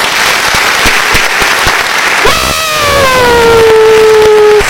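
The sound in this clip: Applause at a radio station's 16-year anniversary celebration: dense, continuous clapping, joined partway through by a long whistle-like tone that slides down in pitch.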